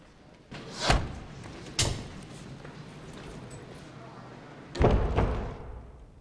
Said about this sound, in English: Uniformed guards open wooden doors, allowing Ryan, Cabot, and two other people entry to a busy glass-walled room beyond.